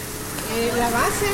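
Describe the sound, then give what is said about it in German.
Bean and cheese pupusas sizzle on a hot, open, street-facing griddle in a traditional pupuseria: a continuous frying hiss under a speaking voice. “Dann legt man den Teig auf das heiße Blech und brät ihn an.”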